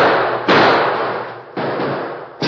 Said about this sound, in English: Who'd be shooting at us?